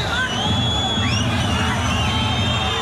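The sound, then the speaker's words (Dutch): Football crowd grumbling in the stands at the stadium, a dense, continuous murmur of many voices with no single shout standing out. “We zien toch ook een beetje en hoor je vooral het gemor op de tribunes van het kasteel.”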